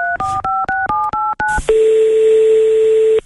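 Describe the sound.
A phone number is dialed on a keypad during a live TV call-in segment: a quick run of short touch-tone beeps, then one long, steady tone that holds for more than a second before cutting off.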